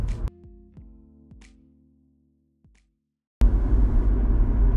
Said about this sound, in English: I hope that you can hear me okay over my car. My car's kind of loud, and I'm going 55 now.